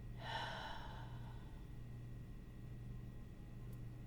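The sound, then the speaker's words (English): Deep breath let out slowly during a guided relaxation: one soft, airy breath near the start that fades within about a second, leaving a steady low hum. “And one last deep breath in. Hold it. This time on the exhale, relax your whole body.”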